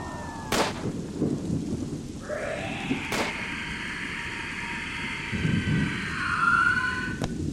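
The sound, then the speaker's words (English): Gunshots in an audio drama: two sharp, faint bangs, a few seconds apart, over a low rumble and sustained tones. “She's been shot.”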